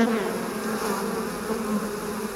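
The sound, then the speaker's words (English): Bees from a movie scene drone in a dense, continuous buzz of many insects. The sound stays steady and fairly loud for a couple of seconds, with slight wavering in its pitch and no voices. “As for why the movie makers chose bees for that scene”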